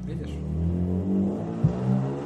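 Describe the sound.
A car engine revs as it drives away, giving a low, steady droning rumble that holds fairly even throughout.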